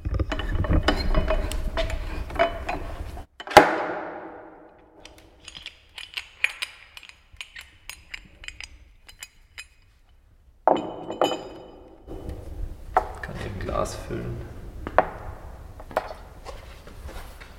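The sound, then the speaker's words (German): Clinks, knocks and mechanical clatter as a wooden virgin-oak barrel is opened, with a sharp thud early on, scattered rattling bursts and quieter stretches between them. “Wir sind mitten im Wehrhaus und jetzt öffnen wir ein Fass”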